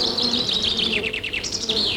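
Bees buzz around hives at an apiary, a steady, busy insect drone that holds for the whole moment with no voices over it.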